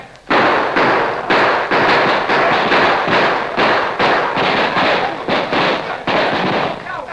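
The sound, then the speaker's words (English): Gunfire in a shootout as kneeling outlaws fire and an advancing posse answers: many loud, rapid shots and thuds overlap without pause for about seven seconds. “the outlaws suddenly dropped to their knees, drew their guns, and fired, to be answered almost immediately by the advancing posse.”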